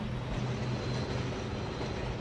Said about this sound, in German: Waggon um Waggon um Waggon voller Kohle rollt über die Schienen zum Hafen.